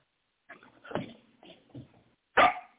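A dog barks in a few short, quiet bursts separated by pauses, with yip-like and whimpering edges. The final bark is the loudest and sharpest, and no one speaks.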